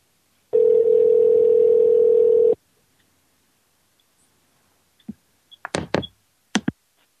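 A steady, even telephone dial tone holds for about two seconds and then cuts off. After a short silence, a few sharp clicks and taps follow, as if the phone is being handled or dialed.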